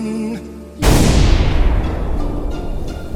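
Gunfire on a command to fire: a single loud, sudden blast that bursts out after a brief quiet lead-in, then rolls into a long, rumbling roar that slowly fades.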